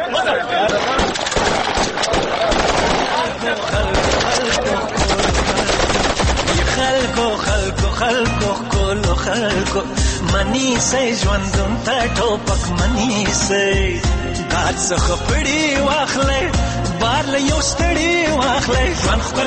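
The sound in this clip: Machine gun fire in rapid bursts, many shots densely packed and loud, mixed with voices and other busy sound throughout.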